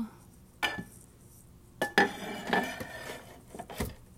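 Dishes, including a microwave dish, clink and knock as they are put away in a kitchen: a few sharp, fairly quiet clatters spaced irregularly, with no talking.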